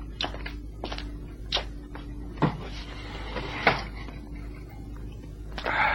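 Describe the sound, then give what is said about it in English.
Windows being opened in a musty room: a few sharp clicks and knocks, with scraping rattles and a faint sustained squeak between them, sound over a low steady hum. “Windows closed? Yeah, I'll open them.”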